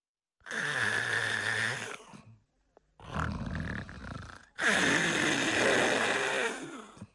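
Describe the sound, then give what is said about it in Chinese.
A man imitates loud snoring, likened to roaring sea tides, for someone sleeping in bed. Three long, rasping, throaty snores are separated by brief silences, and the last is the loudest. “程爷这觉来得快，脑袋一挨枕头这就打呼噜。程咬金这呼噜打得开绝，声如海潮，”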